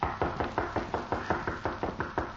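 Knocking on the rear door of a house: many quick, evenly spaced raps in a steady rhythm, each a firm, hollow knock, heard alone without voices.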